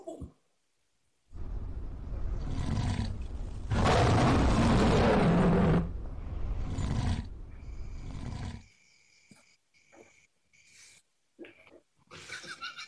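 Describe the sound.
A lion roars in a long, deep, rumbling call that swells to its loudest in the middle and holds for several seconds, then breaks off into a few short scattered sounds.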